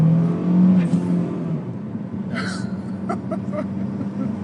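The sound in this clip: A car engine revving as the driver eases the clutch and pulls away in traffic, a steady low engine drone with a few brief, sharp clicks and whirs above it.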